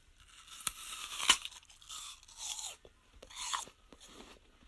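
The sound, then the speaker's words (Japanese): Crisp crunching as someone bites into and chews an apple: a few short, quiet bursts of crackly crunch spaced over several seconds, with no talk. “食べるのはね、ちょっと最初にかじるとこからいこうかな。”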